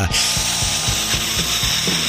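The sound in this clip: A dentist's drill sound effect on a hollow, holed tooth gives off a loud, high-pitched whirring whine. Fast, regular pulses of a lower grinding chatter run through it without a break.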